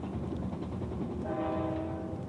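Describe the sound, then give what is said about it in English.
A train runs hard along flat track with a steady, loud, rumbling rush throughout. A horn-like tone rises out of the noise in the second half. “Trains running hard on the flat.”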